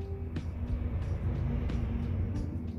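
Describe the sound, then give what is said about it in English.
A garbage truck drives past on a street on a Friday evening in Toronto, Canada, giving a steady, broad low rumble that fills the whole clip at a fairly even loudness. “That's the garbage truck going by on a Friday evening in Toronto, Canada.”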